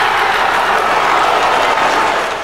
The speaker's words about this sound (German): Grenzenloser Jubel bei der brasilianischen Delegation in Kopenhagen, grenzenloser Jubel in der brasilianischen Metropole am Zuckerhut.